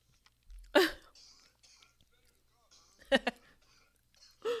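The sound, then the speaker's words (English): Harsh coughing after smoking: a few separate bursts of cough, one a quick double, divided by near-quiet pauses with faint breathing and small mouth sounds. “It's always so hard to cough, man.”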